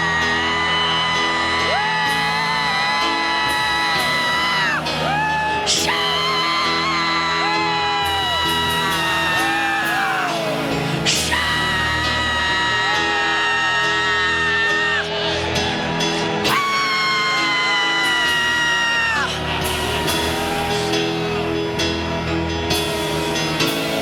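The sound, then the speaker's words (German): A church audience shouting and whooping to the Lord at a conference: loud, continuous whoops and yells with rising and falling pitch glides, over steady sustained musical tones. “Now if you believe you have received, shout unto the Lord right now.”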